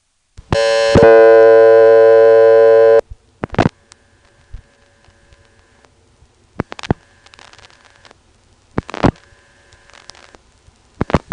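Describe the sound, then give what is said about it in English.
A taped telephone call placed through a callback circuit: a loud, steady multi-tone signal holds for about two and a half seconds, then sharp clicks and faint line noise follow at intervals over a quiet line. “Here I have a tape of calling it, I believe, through the callback circuit, and this time not superimposing the busy tone.”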